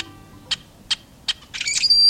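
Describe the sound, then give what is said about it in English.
A rusty blackbird calls with three brief, high, evenly spaced notes, then a longer squeaky, creaking burst that runs to the end. “It's basic black with an inelegant voice. It nests in places we rarely visit, and in relative obscurity. The rusty blackbird has suffered one of the most dramatic population declines”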